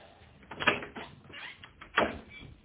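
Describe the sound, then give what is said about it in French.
Someone knocks on a hotel room door with a few dull, quiet raps, spaced irregularly and separated by soft pauses. “On frappe. Oui, tout de suite.”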